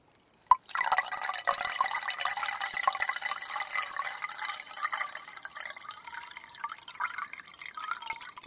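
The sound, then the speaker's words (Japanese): Carbonated water is poured from a glass back into a glass bottle: a sharp glassy clink opens, then a continuous bright fizzing crackle with trickling liquid runs on, thinning slightly but staying steady. “そしてグラスに入った炭酸水を元のガラスの瓶に戻すと、”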